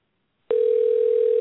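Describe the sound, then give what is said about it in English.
Steady telephone dial tone heard while a call is being dialed, starting abruptly after about half a second of silence and holding one unbroken, even tone to the end. “Okay, we are dialing.”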